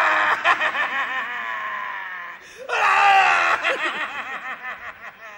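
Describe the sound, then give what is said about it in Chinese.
A voice loudly imitates a son wailing for his dead father, with exaggerated, drawn-out sobbing cries that waver in pitch. The cries come in two long phrases separated by a brief dip. “我给您学一回， 在这儿学。 儿子哭爸爸， 惊天震地。 哎，您听他那声音”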